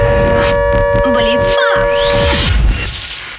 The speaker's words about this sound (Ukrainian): Увага! Увага! Повітряна тривога триває. Залишайтеся в укриттях.